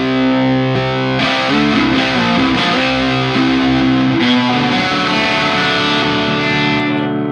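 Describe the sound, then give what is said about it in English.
Loud, distorted electric guitar played through a two-channel fuzz pedal, with dense, sustained chords and notes ringing together continuously and no talking. “It's just a little more clear than other fuzz pedals and such, which is great.”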